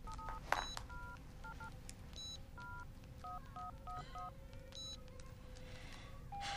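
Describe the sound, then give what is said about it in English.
Mobile phone keypad tones sound as a text message is typed: many short electronic beeps in a quick, irregular rhythm, faint over a low background hiss. “She texts Miyuki. Where are you?”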